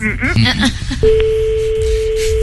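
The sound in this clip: A telephone rings out on a call, heard as a steady single-pitched tone that starts after a brief stretch of voice and holds to the end.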